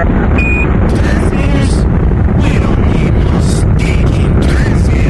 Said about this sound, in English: 5, 4, 3, 2, 1, 0. Liftoff. We have liftoff. The tower is clear.